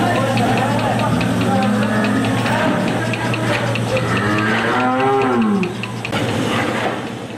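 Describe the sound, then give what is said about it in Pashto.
Cows moo on a dairy farm in Kandahar's Dand district, where the herd is milked by modern machines. A few drawn-out, wavering moos rise over a constant low mechanical hum. “کندهار د ډنډ ولسوالۍ د غواګانو په دغه فارم کې یو سلوشل غواګان سته چې د پرمختللو ماشینونو په وسیله لوشل کیږي”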